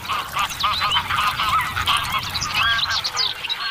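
A grey crane family with growing young gives many overlapping honking, bugling calls in a steady, busy chorus that runs through the whole clip, with no voices.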